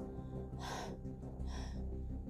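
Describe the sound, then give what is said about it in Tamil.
Breathy panting voiced by a storyteller imitating an old grandmother out of breath after a hard struggle to lift a heavy load out of a pit: two strong, airy gasps with a quieter stretch between them. “அப்படின்னு மூச்சு வாங்க ஆரம்பிச்சிருச்சு”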